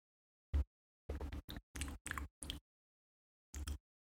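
Soft mouth sounds of someone chewing while tasting a hot milky preparation in an ASMR setting: faint wet clicks and smacks come in short clustered bursts, separated by silent pauses.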